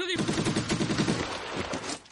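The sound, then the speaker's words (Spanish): Rapid automatic gunfire from Estonian soldiers shooting from a branch of a trench in a 1944 World War II film: a fast, regular string of shots that ends in a quick fade. “Otros soldados estonios les disparan desde otro ramal de la trinchera.”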